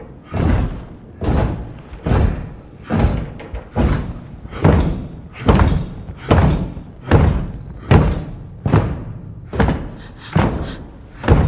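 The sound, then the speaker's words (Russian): Warriors beat a rhythm with spear shafts, some of them standing on tables: heavy, hollow thuds land in a steady beat about once a second, many strikes in a row. “Некоторые из воинов стоят на столах, отбивают ритм древками копий.”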